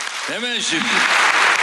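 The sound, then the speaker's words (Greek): An audience at a public event breaks into applause, which swells into a loud, steady wash of clapping after a voice speaks at the start. “Και χειροκροτείται από το ακροατήριο.”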